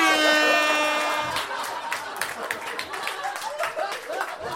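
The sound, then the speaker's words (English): An air horn being tested gives a single loud, sustained, buzzy tone lasting about a second, then fades out. Scattered claps and crowd noise follow. “Can we turn the air horn up just a smidge? Test air horn.”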